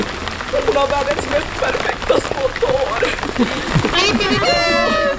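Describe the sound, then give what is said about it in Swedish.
Heavy rain pours down on an outdoor summer theatre premiere, a dense, loud, continuous hiss of drops with voices faintly audible beneath it. “ja, det är inte min bandspelare som har fått fnatt, utan det är regnet som öste ner under hela premiären.”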